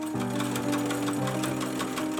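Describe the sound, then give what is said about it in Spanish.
An old Alfa sewing machine, inherited and used for years of home sewing in Barranquilla, runs in a steady, continuous whirring hum with a low motor drone and a faint rapid chatter, alone without voices. “En su vieja máquina de coser Alfa, heredada de su suegra, se ha dedicado durante años enteros a la costura en su casa del barrio Montecristo, en el centro de Barranquilla.”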